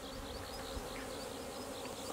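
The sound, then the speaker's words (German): Honeybee drones buzzing outside a hive, a faint, steady, continuous insect hum with no pauses and no voices. “Siehst du die ganzen Drohnen? Da sind ungefähr bald 30, 40 Drohnen draußen hier.”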